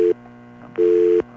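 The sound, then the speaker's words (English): Phone line tone after the line dropped in an electrical surge: a short low beep, a gap, then a longer steady beep, with a faint hum underneath throughout. “There must have been an electrical surge, and our phone lines disconnected.”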